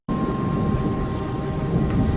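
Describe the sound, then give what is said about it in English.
Thunder rolls around an airport at night, a continuous deep rumbling roar that holds steady and loud throughout without clear separate cracks. “As soon as it gets dark, thunder begins to reverberate around the airport.”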